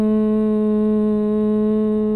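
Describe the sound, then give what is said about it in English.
Bhramari yoga breath, humming like a bumblebee on the exhale: a steady, loud, buzzing human hum held at one constant pitch throughout. “We'll do Brahmari, which sounds like a bumblebee breath. It sounds like this on the exhale.”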